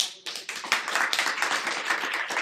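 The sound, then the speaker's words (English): Audience clapping thanks a speaker at the close of a talk and question session: many quick overlapping claps form a brisk, fairly even patter that holds at a moderate level for the whole stretch. “Please join me in thanking.”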